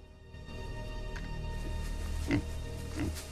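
Wild boar grunting in reeds: two short, low grunts rise briefly above a steady low rumble, with no voices.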